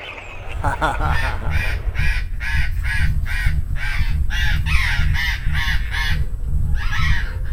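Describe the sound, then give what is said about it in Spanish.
Parrots calling outdoors at dusk as they head off to roost: many harsh, rasping squawks repeat in a rapid, nearly continuous series over a steady low background rumble. “Estoy acá escuchando a los loros, porque esta es la hora que los loros se van a dormir”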